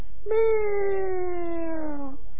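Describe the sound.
A voice imitates a cat's meow: one long, drawn-out, tonal mew that starts with a sharp onset and slides slowly downward in pitch over about two seconds, loud and alone.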